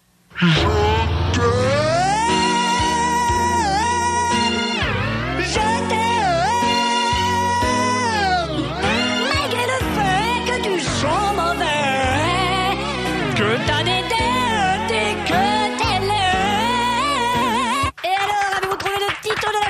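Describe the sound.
A vinyl record of a sung love ballad spun at uneven speed by pedalling in a game, its pitch wobbling and warping constantly through loud continuous music and singing that drops out briefly near the end.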